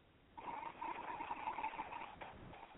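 An ujjayi pranayama inhale, a slow breath drawn through a constricted throat. It makes a steady, throaty hiss with a faint whistling tone that holds for about two and a half seconds.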